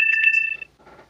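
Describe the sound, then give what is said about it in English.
Mobile phone ringtone: a short, bright electronic ring of steady high tones with a few quick pulses, cutting off after about half a second and leaving faint low noise. “Oh, sorry, that's my phone.”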